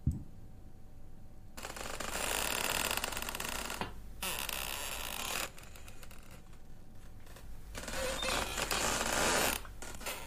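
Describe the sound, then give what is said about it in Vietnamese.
A door, one open leaf of a gate, swings in the wind at night and creaks in several long, grating, drawn-out groans separated by brief quieter gaps. “Gió đang lùa vào, cánh cửa khẽ đung đưa, cho đến khi vang lên những tiếng ken két, đến rợn người trong đêm.”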